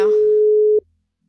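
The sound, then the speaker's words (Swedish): A telephone line tone sounds while a phone number is being dialed: one steady, loud electronic tone that holds for under a second and then cuts off abruptly into silence. “Och nu knappar jag in telefonnumret.”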